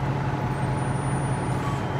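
Military trucks loaded with ammunition drive on roads east of the Gaza Strip. A heavy engine drones in a steady, low rumble with an even loudness throughout.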